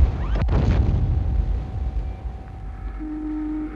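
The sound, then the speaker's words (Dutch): Fireworks from small tin cans found on the beach near Den Helder burst in a single sharp crack over a heavy low roar, which slowly rumbles away and fades. “Badgasten vonden op het strand bij Den Helder kleine blikjes die deden denken aan tabak of sigaretten, maar die een hels vuurwerk bleken te bevatten.”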